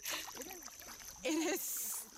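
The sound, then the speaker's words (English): Kayak paddle dips into the water of a bay, splashing and trickling in short bursts, with voices heard alongside the water sounds. “Real quick, look over your right-hand side and dip your paddle in.”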